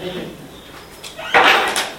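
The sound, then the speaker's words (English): A door being pushed closed, heard as a single sharp rattling thud about midway through, followed by a softer knock, over faint background voices. “Just close the door all the way so the monkeys don't.”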